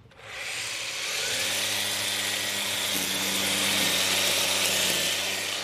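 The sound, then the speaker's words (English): A small battery-powered weed whacker spins up, its motor rising within the first second into a loud, steady, whirring buzz with a bright, hissy edge that holds without pause. “Luckily, I've got a little battery-powered weed whacker, so I'll just fire that up.”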